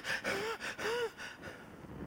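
A person imitates a child gasping for breath after swimming, clinging to a pool wall: two loud, voiced gasps in quick succession, then quieter, ragged breathing that fades.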